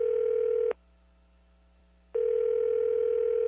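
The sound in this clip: Telephone ringing tone on a mobile call: a steady, mid-pitched electronic tone that cuts off for about a second and a half, then resumes at the same level, with no talk.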